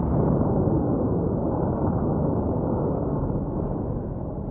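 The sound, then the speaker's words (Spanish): The atomic bomb exploding over Nagasaki, a massive, dense roar that holds as a continuous heavy rumble and eases only slightly toward the end. “Pocas horas después, una bomba atómica cae sobre Nagasaki.”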